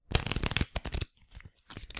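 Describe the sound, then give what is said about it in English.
Playing cards are shuffled for a game of blackjack. A dense crackling riffle runs for about a second, then softer bursts of card flutter follow after a brief pause. “I'm sorry, I have to shuffle.”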